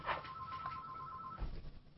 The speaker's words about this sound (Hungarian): bocsánat, csak közben telefonunk van.